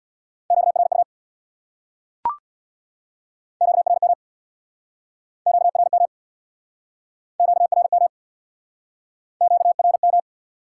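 Morse code sent at 50 wpm for the Q code QRU: a steady mid-pitched tone keyed in five rapid bursts of dots and dashes, with one sharp click near the start between the first and second bursts.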